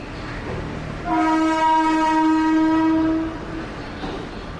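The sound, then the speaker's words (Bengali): A train rumbles into a station and sounds a steady, tonal horn for about two seconds over a low, continuous rolling noise. “ঝমঝম শব্দে একটা train ঢুকছে স্টেশনে।”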